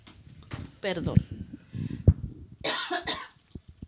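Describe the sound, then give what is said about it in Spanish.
A woman who is ill coughs a few times in the morning, short rough bursts separated by stretches of her voice. “Disculpen, es que ya saben que estoy enferma. Y ya estás mejor, ¿por qué? Sí, ya estoy mejor, pero en las mañanas siempre de pronto me da la tos.”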